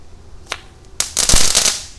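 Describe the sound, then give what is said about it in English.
A crackle bomb firework going off in a yard: a couple of sharp isolated pops, then a loud, dense burst of rapid sizzling crackles that continues to the end. “Here's a crackle bomb. Let's light a crackle bomb. Throw it down there in my yard. Crackly.”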